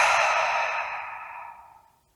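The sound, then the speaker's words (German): A long, deep exhale through the mouth during a guided breathing exercise, a soft breathy rush that starts full and gradually fades away over about two seconds. “Und dafür nehmen wir jetzt drei ganz tiefe Atemzüge durch die Nase ein und durch den Mund aus.”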